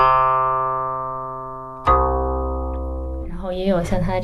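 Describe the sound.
A guqin played with the open-string technique: two plucked notes, each ringing with a long, slowly fading tone. A voice starts talking over the end of the second note.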